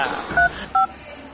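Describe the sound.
Two touch-tone beeps as a telephone number is dialed: short, steady electronic tones separated by a brief gap, heard alone over faint background hiss.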